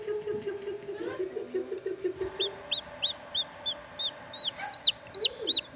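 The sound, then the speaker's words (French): Chicken chicks cheep in many short, high peeps that grow more frequent and louder toward the end. A lower hen-like clucking sounds near the start. “Oh, les poussins! C'est chouette. Oh, mais il y en a deux noirs!”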